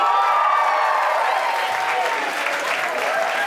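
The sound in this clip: Steady audience applause for the men attending a talk on relationships and emotional virtue. Dense, even clapping continues at a constant level without pause.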